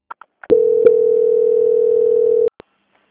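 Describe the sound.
A steady telephone line tone plays while a bank call is being transferred: one continuous, unbroken tone of about two seconds, with a few brief clicks just before and after it.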